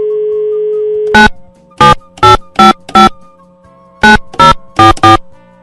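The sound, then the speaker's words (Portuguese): Phone ringing on an outgoing call: a steady tone, then two quick groups of short, bright electronic tone bursts with a pause between them. The bursts are loud, with no voices. “Deixa eu ligar pra essa pessoa aqui, deixa eu ver se ela me atende.”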